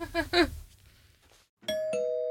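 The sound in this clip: Doorbell ringing with a two-note ding-dong chime near the end, the second tone ringing on and sustaining after a quieter stretch.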